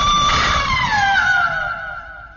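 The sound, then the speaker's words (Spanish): A strange, chilling scream from a man speared in the chest: a long, high, wailing cry that slides slowly downward in pitch and fades a little toward the end. “Un grito extraño y escalofriante brotó de los labios de Stabai, que retrocedió con la lanza clavada en el pecho.”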